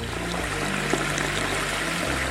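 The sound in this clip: Water rushing from a pipe and a giant shower head, a loud, continuous splashing hiss that stays steady and unbroken throughout.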